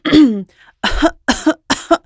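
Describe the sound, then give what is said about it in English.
Coughing in a few harsh bursts: a longer, drawn-out voiced cough first, then three shorter, chesty hacks in quick succession, loud and with no talk. “they might have woken up this morning with a little bit of a cough that sounds like this.”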